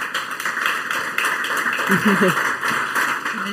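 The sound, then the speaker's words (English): Applause from a conference audience welcoming panel guests onto a stage, a steady wash of clapping with a brief voice rising over it midway. “Very warm applause for them.”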